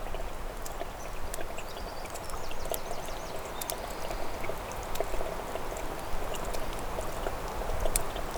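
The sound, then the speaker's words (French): Water droplets trickle steadily, a soft continuous wash of running water flecked with a few sharp, bright drips, moderately loud and even throughout. “Des gouttelettes d'eau.”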